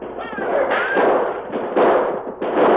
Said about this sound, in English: Shoot them, now we can fight.